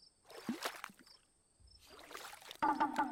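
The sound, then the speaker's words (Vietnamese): Water splashes as someone washes vegetables in a family pond behind a house, with a few irregular splashes and trickles that are fairly faint and come in short bursts. “Ủa, ai vậy cả? Ai mà rửa rau chỗ ao nhà mình giờ đây?”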